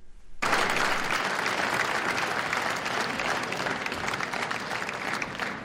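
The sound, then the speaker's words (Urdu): Applause opens a Sufi music concert in the UN General Assembly Hall in New York, held for Pakistan Day. Dense, sustained clapping from a large audience starts abruptly after a brief quiet moment and stays even throughout. “تالیوں کی گونج اور ملی نغمے پر مبنی دھن سے new York میں اقوام متحدہ کے جنرل اسمبلی ہال میں صوفی میوزک کانسرٹ کا آغاز ہوا۔”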